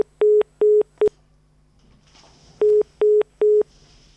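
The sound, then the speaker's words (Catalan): Busy tone from a dropped incoming phone call: six short, steady, mid-pitched beeps in two sets of three, the last beep of the first set cut short, with a brief rustling gap between the sets. “Teníem una trucada, no sé si encara la podem recuperar.”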